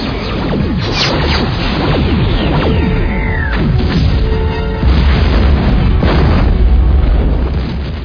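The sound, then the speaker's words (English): Quantum torpedoes are fired from a starship and strike a planet's surface, giving a loud, continuous mix of deep booms, rumbling blasts and whooshing sweeps with no pause. “quantum torpedoes. Ready, sir. Fire. Fire.”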